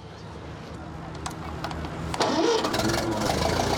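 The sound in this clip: A late-1940s European-model Ferguson tractor engine is cranked and starts, with a few uneven starter turns before it catches at once and settles into a louder, steady mid-pitched rumble.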